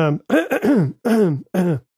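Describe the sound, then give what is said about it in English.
Throat clearing from someone with something stuck in the throat: several short, voiced, grunting bursts with wavering pitch, separated by brief gaps, with no talk. “I had something stuck in my throat”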